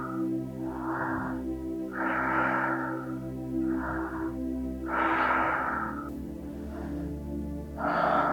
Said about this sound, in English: Focus on the air coming in and out. 5 more. In, out.